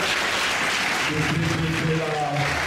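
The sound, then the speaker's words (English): Applause for a coach at Dunbar High School: steady, dense clapping that holds at an even level throughout, with voices audible over it. “Let's give him a hand.”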